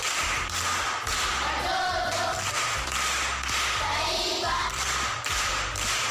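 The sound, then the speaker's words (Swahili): Group clapping from primary school pupils in a classroom riddle game, applauding a classmate's correct answer: a steady, rhythmic run of dull thumping claps that carries on for several seconds. “Makofi kwa Ana.”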